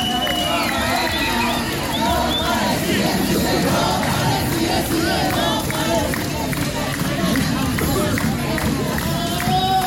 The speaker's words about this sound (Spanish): los peregrinos que en la última hora de la procesión dejaron su alegría y su mensaje para toda la juventud.